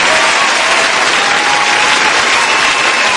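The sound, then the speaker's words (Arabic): An audience applauds with loud, dense clapping that holds steady and unbroken all the way through. “هذه تصفيقة”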